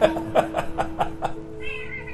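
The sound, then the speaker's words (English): A naughty cat meows in a film scene while someone coaxes it to come down. The meow is a tonal, moderately loud call over a steady background hum and a run of soft rhythmic pulses. “He's such a naughty cat. I always tell him not to.”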